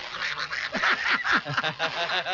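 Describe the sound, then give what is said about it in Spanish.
A person imitating a cartoon duck's quacking speech: a continuous stream of buzzy, nasal, squawking syllables with a thin, muffled, slightly distorted tone. “¡Ah, el pato Donald! Muy bien, a ver, otra vez habla como él.”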